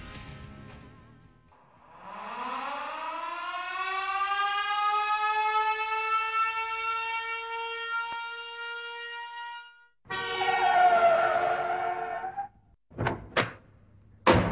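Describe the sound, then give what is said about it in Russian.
An ambulance siren arrives with a wail that climbs in pitch over several seconds, then holds steady and loud for about eight seconds before cutting off. Other sounds follow, ending in a few short, sharp bangs. “А вот и скорая.”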